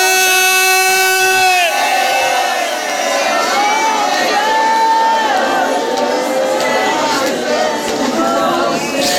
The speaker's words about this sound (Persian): هر گره کوری داری بیار، هر جور بلدی نعره بزن برسه به کربلا، بگو یا حسین.